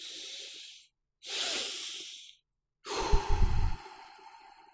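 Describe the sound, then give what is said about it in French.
Slow relaxation breathing, in through the nose and out through the mouth, used to calm down: three long, airy breaths with short pauses between them, the last one louder and rougher. “On respire par le nez, on souffle par la bouche.”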